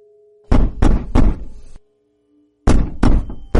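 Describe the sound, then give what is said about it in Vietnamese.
A door is pounded on with heavy, booming thuds: three blows in quick succession, a pause, then another rapid series of blows. A faint steady hum sits underneath. “Tiếng đập cửa lại vang lên”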